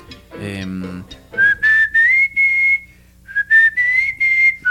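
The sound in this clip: A person whistles a tune in two clear melodic phrases, each climbing in steps to a sustained higher note, loud and bright, with a short burst of speech just before the first phrase.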